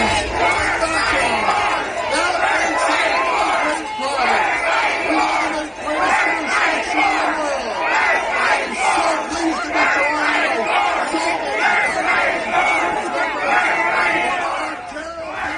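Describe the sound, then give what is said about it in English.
A dense crowd roars at Ford Fest, Doug Ford's political gathering, with loud, rhythmic shouting and yelling that holds steady for the whole stretch. “That's the sound of Ford Fest on Friday evening. A little hard to tell what was happening there, but if you listened really closely, you could hear the premier trying to address those who were in attendance.”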